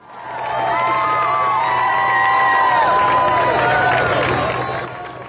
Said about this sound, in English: Their fans gave them a warm welcome when they returned to Raleigh.